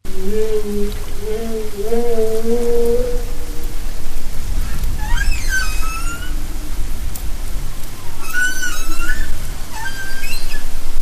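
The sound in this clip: Whale song recorded underwater: low, repeating moans give way after a pause to higher, sweeping whoops and cries, all over a constant rushing hiss.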